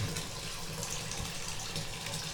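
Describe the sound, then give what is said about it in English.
Hot water runs from a tap in a steady, continuous rush of hiss and splash that stays even throughout, with no talk. “Let's see if we can get the hot water going. Am I turning it the wrong way? Yes. I don't know how to turn the water on.”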